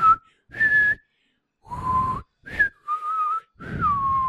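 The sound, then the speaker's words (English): A man whistles a short, off-melody tune, imitating the sound a doll makes. It has six separate clear notes at mid-high pitch with short silences between them, and the last note glides downward. “Alan Arkin is a really fucking bad whistler. Really? He's not that bad. The one scene where he's like, you'll know it's the doll because it sounds like this.”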